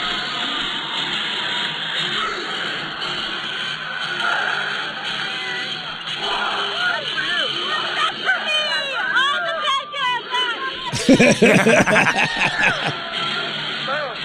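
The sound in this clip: A loud crowd of hardcore fans whooping, shrieking and yelling over a constant roar, with a sharper burst of shouting near the end.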